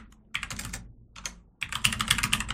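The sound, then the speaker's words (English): Typing on a computer keyboard while entering network values into a Windows Server 2019 DHCP scope setup: several bursts of quick, crisp keystrokes separated by brief pauses, with no talking. “And we'll just type in the same values that we specified inside of the network documentation.”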